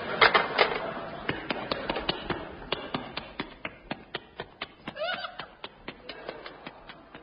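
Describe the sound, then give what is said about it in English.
Running boots from a sound-effects library record of scratchy old discs: many quick, evenly spaced footfalls tap along in a steady rhythm, thin and fairly faint throughout. “Those running boots are a repeat of the running boots you heard in Those Were the Days on the light program on March the 2nd.”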